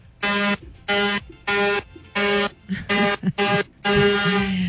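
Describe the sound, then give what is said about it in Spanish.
A buzzy, harmonic horn honks in a rapid series of short, even blasts, then ends with a longer sustained blast. “Uy, suena largo. Pitos que yo tengo aquí. Suena largo y tendido.”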